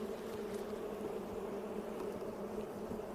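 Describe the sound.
Bees buzzing in an open beehive during a frame inspection with a smoker, a steady, dense, low droning hum that stays even and continuous throughout, with no talk.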